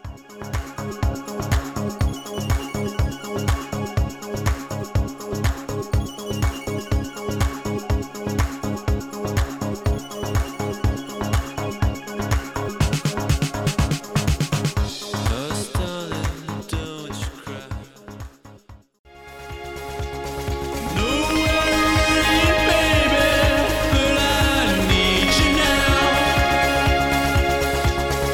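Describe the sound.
An electronic dance track plays with a steady pulsing beat and layered synths. It breaks off briefly partway through, then returns fuller and louder with bright sustained synth lines.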